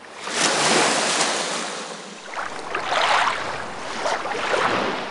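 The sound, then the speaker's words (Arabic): Sea waves wash onto the shore in front of a seaside house, a broad rushing surf that swells and ebbs in a few surges, with a steady wind-like hiss underneath. “والله البحر قعدته حلوة، بس بيني وبينك تحلاش إلا بالسمك.”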